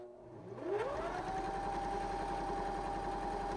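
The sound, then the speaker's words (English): A sewing machine motor running while sewing: it winds up with a rising whine, then settles into a steady, even electric hum with a faint mechanical whir underneath, and no voices. “So I'm going to go ahead and start sewing on it back here.”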